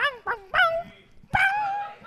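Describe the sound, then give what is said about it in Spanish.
A small dog 'singing' in a video, a few short whimpering yips that stretch into drawn-out, tuneful whines and howls, fairly faint. “¿vieron el video del perrito cantando?”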